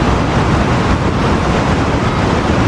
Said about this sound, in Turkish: Etkili yağışların ardından nehir seviyesinin yükselmesiyle şelalelerde su akışı normalin 4 katına çıktı.